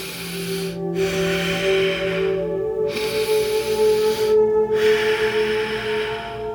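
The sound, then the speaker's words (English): Slow, deep breathing in and out through the nose into the belly: long, soft, airy inhales and exhales separated by short pauses, over a faint, steady sustained tone. “We're going to begin by breathing in and out of the nose very slowly and deeply into your belly and out of your belly if that's available for you. So it'll sound like this.”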